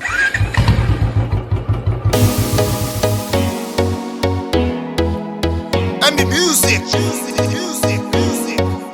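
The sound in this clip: A Bullet motorcycle engine starts with a rapid, loud, low chugging for about two seconds, followed by a steady, heavy rhythmic beat that runs to the end.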